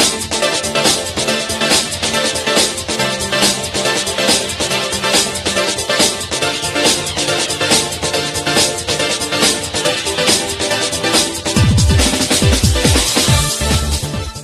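A remix of a track from the Sega arcade racing game OutRun plays as dense, loud electronic music throughout. The beat stays steady, and heavier, sweeping bass hits come in over the last few seconds.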